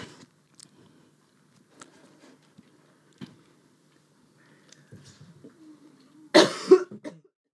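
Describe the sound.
A short, harsh burst of coughing breaks a long near-silent stretch of faint clicks and small mouth noises. The cough comes near the end with a couple of quick rough pulses, loud against the quiet.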